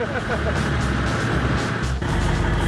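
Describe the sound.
URO VAMTAC off-road vehicle with a 3.2-litre six-cylinder engine, its motor running with a steady low rumble that briefly dips and shifts in tone partway through.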